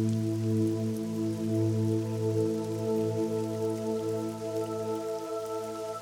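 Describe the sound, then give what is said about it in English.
Gentle rain falls in a soft, even, continuous patter, quiet and steady throughout, beneath a low sustained humming drone. “Standing under this gentle rain”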